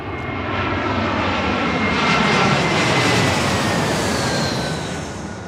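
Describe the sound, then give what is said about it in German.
A Lufthansa passenger plane bound for Frankfurt moves onto the runway, its engines a loud, broad roar that swells through the middle and eases slightly toward the end. “Gerade kommt eine Maschine auf die Startbahn. Wir gucken mal. Das ist der Lufthansa-Flug nach Frankfurt.”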